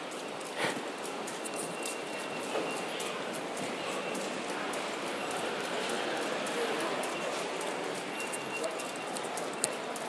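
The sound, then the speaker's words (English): Steady ambience in the Jubilee Line ticket hall of a London Underground station: a constant, dense wash of crowd noise and footsteps, with people talking throughout and occasional sharper knocks. “We've dipped down again now to head towards the mezzanine level above the Jubilee Line ticket hall. So you can hear the sound of that increasing.”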